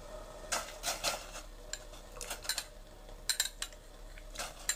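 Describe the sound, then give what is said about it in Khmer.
Tofu is added into a pot of hot water, heard as faint metallic clinks and taps of a utensil against the pot in scattered bursts over a quiet background, with no talking. “ទឹករបស់យើងក្តៅហើយមិនចាំបាច់ពុះម្ដងទៀតក៏បានដែរយើងបង់តៅហ៊ូចូល”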